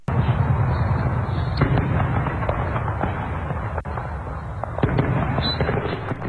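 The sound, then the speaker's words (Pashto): Gunfire rings out during fighting in southern Tripoli, Libya: a dense, loud barrage of many overlapping shots and crackling bursts carries on without a clear pause for the whole stretch. “مګر بیا هم د خار په جنوبي برخو کې د ټوپکو د ډزو اوازونه اوریدل کیږي.”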